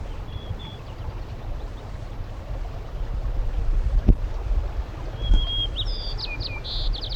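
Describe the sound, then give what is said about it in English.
White-crowned sparrow song: a faint early chirp, then near the end a loud run of high, clear whistled notes and quick trills. A steady low rumble and wind noise run underneath throughout. “White crowned sparrow”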